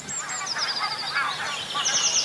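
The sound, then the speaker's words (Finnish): Birdsong from a morning dawn chorus, given as common chaffinch song, forms a dense layer of high, bright chirps and trills that runs steadily for about two seconds. “Sano vaan rohkeasti sitten laji tulee sieltä. tulee peippo.”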